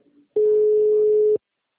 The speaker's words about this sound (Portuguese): Caiu a ligação.